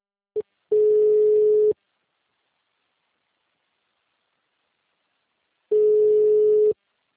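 Telephone line tone after a dropped call: a brief blip, then two steady one-second beeps at the same pitch, separated by a long silence, with no voices.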